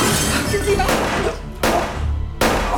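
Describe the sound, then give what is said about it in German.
Glass shatters as a lamp is hurled through a window, with a few loud, sharp crashing bursts rising out of continuous noise. “Ich griff nach einer Lampe, die in meiner Nähe stand, und schleuderte sie mit aller Kraft in eines der Fenster.”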